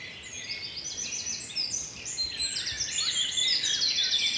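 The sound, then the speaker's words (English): Birdsong from blackbird, wren and blackcap along a wooded lane of hazel, holly, hawthorn, elder and beech in the Brecon Beacons in the morning: many overlapping high chirps, trills and warbles in a steady, dense chorus with no talk. “Blackbirds, really. Wren, blackbird. Black cap in front of me.”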